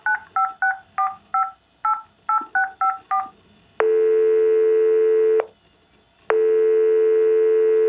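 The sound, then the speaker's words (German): Touch tones beep as a telephone number is dialed: a rapid run of short, bright two-tone beeps, then two long, steady ringing tones separated by a pause. “Gut, rufen wir an.”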